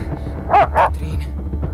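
A dog gives two short, sharp barks in quick succession over a low rumbling background, followed by quieter scuffling.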